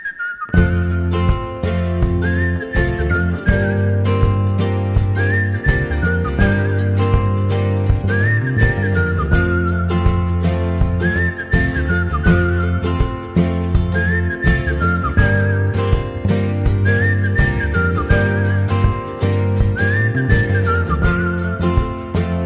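A whistled melody opens a song: short, bright phrases that bend up and down and repeat over and over, riding loud and clear above a steady, rhythmic band accompaniment.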